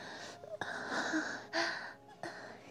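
A woman panting: a few breathy, airy gasps and exhales in a steady rhythm, soft in level, with short pauses between breaths.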